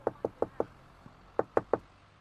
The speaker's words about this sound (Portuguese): bata a porta.